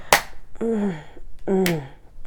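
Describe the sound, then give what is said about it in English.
Two sharp slaps to a face land as crisp, loud smacks, with a drawn-out voiced sound between them. “Here's some slaps to that fucking face. There you go. Fuck, you like when I slap your fucking face.”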